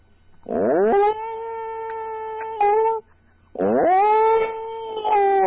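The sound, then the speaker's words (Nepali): A human voice imitates a dog with two long, wavering howls, each sliding up in pitch at the start and then holding a steady whining tone, separated by a short pause. “सुरुमा चाहिँ कुकुरको गर्छु ल यसरी कुकुर यसरी कराउँछ”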